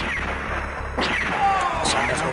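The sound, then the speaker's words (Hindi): Gunshot sound effect in a Hindi radio drama staged at a live event, heard as a few sharp, loud bangs over a dense noisy background, mixed with voices. “हाँ आगे बढ़ो, चलाओ गोली।”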